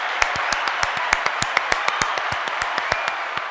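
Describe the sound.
Two people clapping their hands together in unison: many sharp, evenly spaced claps in a steady, brisk rhythm, each a crisp, bright snap at moderate loudness.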